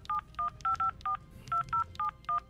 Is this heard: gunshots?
no